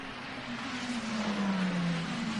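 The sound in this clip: A Peugeot race car, number 94, rolls down the pit lane with a steady, unbroken engine drone and a low hum that slowly falls in pitch.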